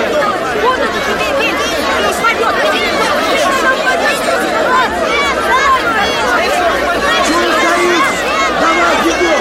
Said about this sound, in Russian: На улице около общежития собралась толпа жильцов.